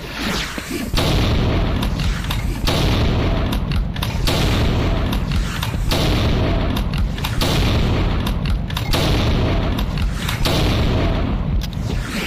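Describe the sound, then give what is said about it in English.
Shotgun shells explode in a video game after a hit on the player's tank. Deep booms come in a rapid series over a continuous loud roar, with sharp bursts recurring at fairly regular intervals. “Oh, that was shotgun shells.”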